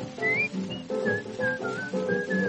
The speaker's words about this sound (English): Try to be just like the cheerful chickadee and whistle while you work.